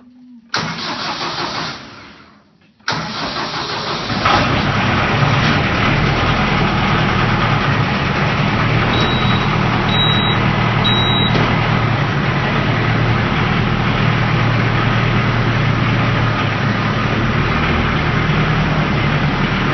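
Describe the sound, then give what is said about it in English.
A grandfather's tractor starting in Michigan: the starter cranks for about two seconds and stops briefly. Then the engine catches and settles into a loud, steady, deep running rumble. “This is the sound of my grandpa starting his... tractor.”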